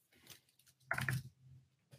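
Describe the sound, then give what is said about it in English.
Computer keyboard typing as a command is entered, heard as faint, scattered clicks in a few short bursts with a denser cluster near the middle. “And then you can type slash imagine.”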